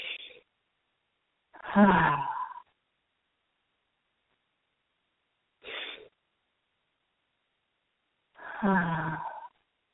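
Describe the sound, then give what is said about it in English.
Deep breaths drawn in through the belly and let out through the mouth: four breathy bursts separated by long silent gaps. The second and last are longer and fuller, with a slight voiced, sighing quality. “let's take a few deep breaths in through the belly and out through our mouth.”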